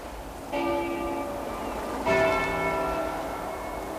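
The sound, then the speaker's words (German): Church bells ring out in two separate strikes with bright, long-decaying overtones, the second strike slightly louder, over a steady low background hiss. “Professor! Hören Sie das? Glocken. Glocken, Professor.”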